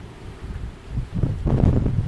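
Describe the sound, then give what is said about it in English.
Wind blasts through portals along an open wall, a low, rough, rumbling roar that comes in gusts and grows louder and denser in the second half. “along the wall you've got these portals, and the wind is blasting through.”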